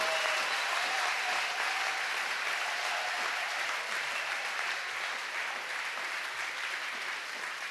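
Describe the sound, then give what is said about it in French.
An audience claps hands together at a night of prayer gathering, producing a steady, dense wash of applause that runs unbroken for several seconds at a fairly even, moderate level. “Acclamons le Seigneur. Let's clap for the Lord.”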